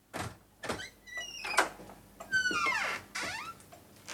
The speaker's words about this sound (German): Leise zumachen.